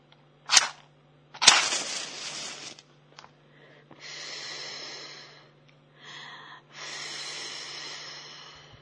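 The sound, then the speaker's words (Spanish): A fire being lit under a soup pot: two sharp scratchy strikes come first, then several soft, breathy whooshing bursts with quiet gaps between them. “Y a encender el fuego.”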